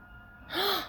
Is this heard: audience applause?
no

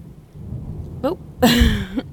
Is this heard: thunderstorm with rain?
yes

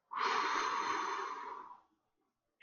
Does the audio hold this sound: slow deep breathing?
yes

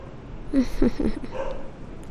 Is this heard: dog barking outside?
yes

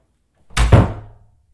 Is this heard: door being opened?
yes

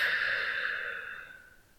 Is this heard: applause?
no

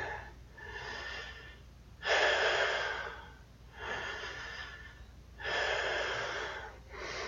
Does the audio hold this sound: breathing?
yes

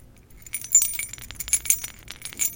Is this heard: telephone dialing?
no

